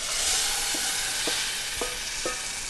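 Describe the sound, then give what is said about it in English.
Onions fry in a large nonstick skillet over flames, giving a steady loud sizzle with a few soft knocks as the pan is shaken and the onions are stirred. “She shakes the onions over the flames using a large nonstick skillet.”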